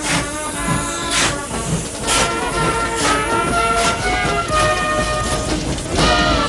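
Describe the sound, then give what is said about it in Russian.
A train pulls away from a station platform, a military train with open wagons carrying vehicles and artillery, giving a continuous loud rumbling hiss with recurring bursts throughout. “Поезд набирает ход.”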